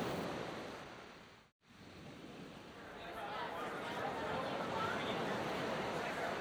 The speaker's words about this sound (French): il arrive au bord de la mer Méditerranée. C'est le port de Joppé.